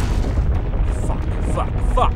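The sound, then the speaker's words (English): A giant worm bursts up through dry, hard-packed desert earth in a dense, continuous low rumbling roar with crumbling, gritty texture that stays loud throughout. “The worm exploded to the surface, throwing dry desert earth into the air and showering them with dust and hard-packed earth.”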